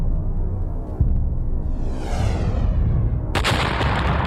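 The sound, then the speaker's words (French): Sound effect of a giant meteorite crashing into what will become the Gulf of Mexico: a low rumble under a swelling whoosh, then a loud, bright explosive blast bursts in near the end and lingers. “Il y a 65 millions d'années, une nouvelle météorite géante s'écrase dans ce qui deviendra le golfe du Mexique.”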